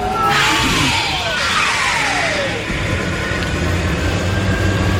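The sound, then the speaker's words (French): A whooshing takeoff sound effect, like a car or aircraft launching, made on an audio effects device. Broad rushing noise carries several gliding tones that sweep downward, staying loud and steady throughout. “Tiens, voyons, on se fait un petit décollage.”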